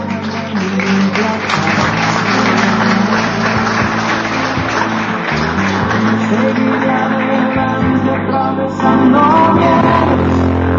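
Audience applause at an award ceremony honoring a taekwondo winner, a dense, continuous wash of clapping that stays loud and steady for about eleven seconds over a sustained tonal background.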